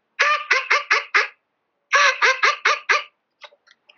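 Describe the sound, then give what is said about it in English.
Mallard duck call blown to imitate a cinnamon teal hen: two quick runs of five high, nasal quacks separated by a short pause, followed by a few faint, broken trailing notes. “I've had some success with that real high-pitched little, I don't know if they make a teal call. I just use my regular mallard call, and it sounds like this.”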